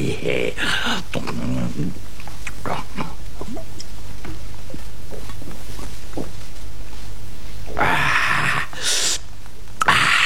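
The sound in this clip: Drinking from a bottle in a radio drama: a run of quick gulps and breathy sounds, then a louder, brief burst near the end.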